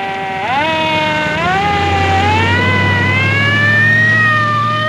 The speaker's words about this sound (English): The ambulance drives off.